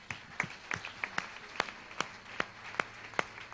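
Sparse, steady claps at a church service, a run of sharp, evenly spaced hand claps about every half second, moderately loud, with no voices over them.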